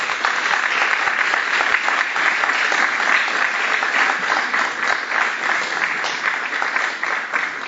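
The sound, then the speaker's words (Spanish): An audience at a conference bursts into strong applause: dense, steady clapping that stays loud and even throughout with no pauses. “un fuerte aplauso”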